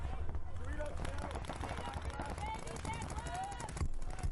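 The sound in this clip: Paintball guns firing during a paintball game: rapid, continuous popping shots in quick bursts, with voices talking and calling over the gunfire.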